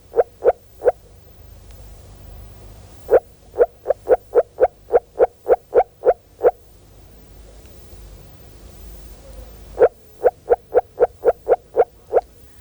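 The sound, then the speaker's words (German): A frog calls in water at 12 degrees, giving short, evenly spaced croaking pulses in three bursts: a brief opening trio, then two longer rapid runs, with quiet between the bursts. “Und bei 12 Grad Wassertemperatur bringt unser Frosch nur noch ganz kurzgereihte Rufe.”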